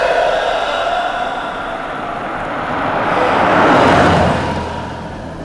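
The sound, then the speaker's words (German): A brand-new Jaguar on a road to Versailles slows down and stops at the roadside, heard as a steady engine and road hum that swells briefly and then eases off. “Der Wagen mit dem Kennzeichen TT, ein fabrikneuer Jaguar, der auf der Straße nach Versailles dahinrollte, wurde langsamer und blieb schließlich am Straßenrand stehen.”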